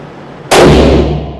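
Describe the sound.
A single loud gunshot from a hand-cycled gun firing larger rounds at an American shooting range: a sharp, abrupt crack followed by a long ringing tail that slowly fades.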